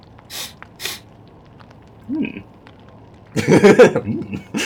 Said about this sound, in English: Inhale.